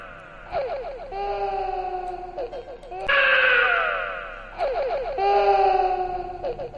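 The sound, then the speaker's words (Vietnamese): A baby's pained wailing in a narrated ghost story: several drawn-out, high, wavering cries with sliding pitch, separated by short breaks and loudest in the middle stretch. “Tức thì đứa bé khóc lên một tiếng thảm thiết và nó ra dáng như là quằn quại đau đớn lắm.”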